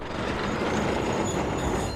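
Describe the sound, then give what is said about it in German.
An old tram arrives at the mountain station on Mount Snaefell, with a steady, dense rumble of wheels on rail at even loudness throughout. “Gut 30 Minuten, nachdem sie an der Küste losgefahren ist, erreicht die alte Tram die Bergstation.”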